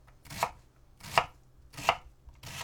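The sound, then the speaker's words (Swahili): A knife chops a vegetable into 5 mm cubes: four crisp, evenly spaced thuds on the cutting board in a slow, steady rhythm, alone with no talking. “Kigeuze ili kikuangalie kiupande na uanze pembeni kukikatakata huku kikiachana kwa nafasi ya milimita 5 ili kutengeneza vipande vya mche mraba ulio na milimita 5.”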